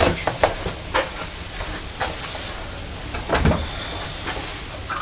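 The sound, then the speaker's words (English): A chair scrapes as it is pushed up toward a table at mealtime: a few broad, rough scuffing noises over steady background noise. “let's get you your chair moved up towards the table”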